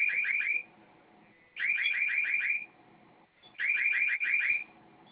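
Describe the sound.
Home alarm system panel sounding after a code is entered: three separate bursts of rapid, high-pitched electronic chirps, each burst a quick run of beeps, with short quiet gaps between them.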